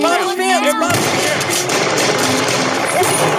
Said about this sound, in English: Give me the rifle. I'll reload it. Take this one. Pop off another one.